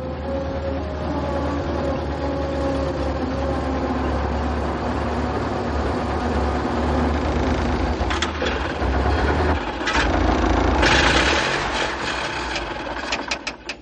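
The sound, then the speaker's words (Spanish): A car engine rumbles low and steady as the vehicle drives among a herd of buffalo in the African bush, with some clattering knocks in the latter part. “El coche pasa entre ellos.”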